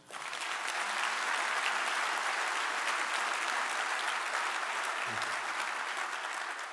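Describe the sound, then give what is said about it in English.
Audience applause welcomes NATO commanders at Norfolk's 2017 State of the City event, a dense, steady wash of clapping that holds at an even level for the whole stretch. “Here, representing NATO, are Supreme Allied Commander Transformation, General Denny Mercier, and Deputy Commander Manfred Nielsen. Please join me and welcome them.”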